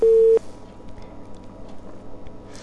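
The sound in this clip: A telephone line tone after a caller dropped off a phone-in: a single loud, steady, mid-pitched tone lasting under half a second, then the faint hiss of the open line.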